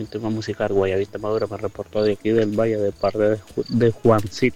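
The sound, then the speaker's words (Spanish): Crickets chirp steadily in the background of a sent voice message while a man talks over them throughout. “Se oyen los grillos ahí todavía,”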